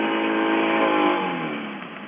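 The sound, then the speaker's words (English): Motor of a motorized raft searching floodwaters for stranded people, a steady buzzing drone with a strong harmonic whine that holds, then gradually quietens and sinks slightly in pitch. “A group of volunteers from the organization World Relief set out in a motorized raft to look for people stranded by the floodwaters.”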